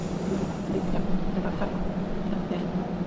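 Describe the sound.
A train rattles past, heard far away, as a faint, continuous clattering rumble that stays steady and unbroken throughout, with no clear individual clicks standing out.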